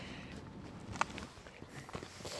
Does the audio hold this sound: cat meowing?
no